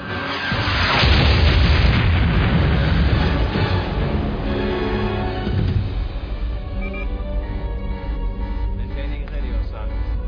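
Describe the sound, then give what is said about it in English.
A missile fired at MiG fighter jets, with an explosion: a loud, deep roaring boom that swells in the first seconds, holds for several seconds, then settles into a lower, fainter rumble. “One missile at the MiGs.”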